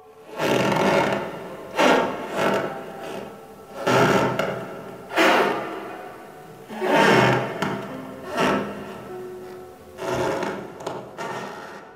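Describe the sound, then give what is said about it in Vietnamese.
Old wooden stairs up to an attic creaking as they are climbed, used as a storytelling sound effect: a slow series of long, groaning creaks, each swelling and fading, repeated many times. “Tôi trèo lên gác xếp, mỗi lần trèo một bậc lại có tiếng kéo kẹt vang lên.”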